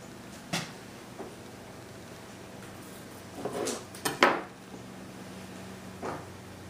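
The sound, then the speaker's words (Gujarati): A cardamom cake is cut and set on a plate. A few sparse, faint knocks and clinks of knife and plate sound against a quiet background, with no voices. “ચાલો આપણે એને કાપી આપણે એને fine રીતે પ્લેટમાં આપણે present કરશું.”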